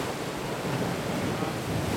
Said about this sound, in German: Nur das Meer übertönt das Geschnatter der Badegäste.